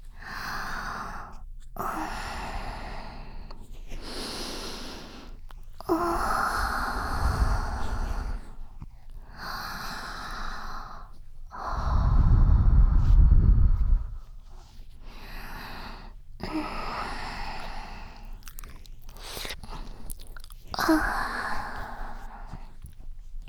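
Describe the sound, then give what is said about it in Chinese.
Close, breathy sniffing from someone smelling another person's scent, many soft nasal inhales and sighs in an otherwise quiet clip, with a longer, louder rushing breath near the middle. “好喜欢学长身上的味道，让人家再多闻一点。”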